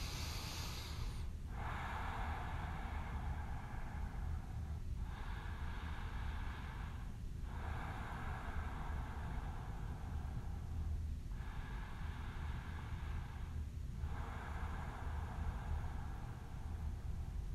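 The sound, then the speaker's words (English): Deep rhythmic breathing during a guided breathing exercise, in through the nose and out through the mouth. Slow, airy whooshes repeat in steady cycles of a few seconds each, with no talking. “Moving into a normal breath. In through your nose, out through your mouth. Just moving it into a rhythmic breath, a deeper breath.”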